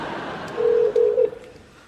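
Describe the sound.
Electronic telephone tones sound while a hotel number is dialed: a moderately loud, steady mid-pitched tone with one brief break, giving two short segments back to back over a quiet hiss.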